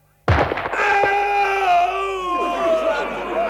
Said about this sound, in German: Schieß mit Kugeln, nicht mit Worten. Old Shatterhand möge schießen. Eins, zwei, drei.